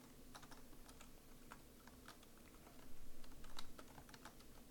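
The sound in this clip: Typing on a computer keyboard, a fast, steady patter of light clicks kept faint and even, growing briefly busier and louder near the end.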